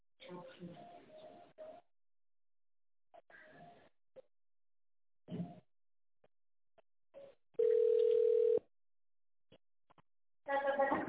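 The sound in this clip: Telephone ringback tone as a call is put through after a recorded menu: a single steady, low tone lasting about a second, set between stretches of quiet speech.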